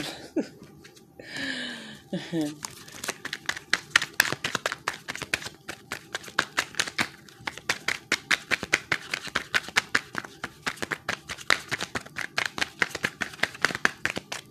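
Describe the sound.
Tarot cards are shuffled and drawn in many rapid, crisp flicks and riffles that continue in bursts throughout. A brief voice sound comes near the start.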